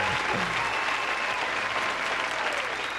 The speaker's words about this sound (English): Let's give y'all a round of applause, man.